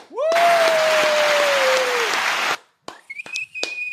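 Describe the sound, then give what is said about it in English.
Audience applause and cheering greet the host of a show, a dense, loud burst of clapping lasting about two and a half seconds with a sliding whistle over it, followed by a few shorter whistle tones. “Put your hands together for the host of Bigfoot Crossroads, Mr. Matt Knapp.”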